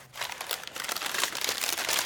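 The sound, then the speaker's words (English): Plain paper bag crinkling at a shop counter: soft, quiet, dense crackles and rustles that build slightly and continue without pause for about two seconds. “Can you gift wrap them for me? Oh, that will be an extra 10 cents, oh, sir. Never mind, then. A plain paper bag will be fine.”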